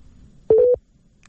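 A single short, steady telephone line tone sounds during the dialing of a number, lasting about a quarter second in near silence.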